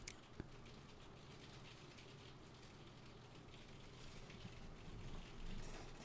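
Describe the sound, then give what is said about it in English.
Rain picked up through a microphone, a faint steady patter and hiss with no voices, swelling slightly near the end. “Why? Why is it raining?”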